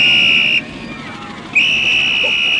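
A shrill whistle is blown at a harbour during a shark alert: two long, steady high blasts separated by a short gap, loud over a low background rumble.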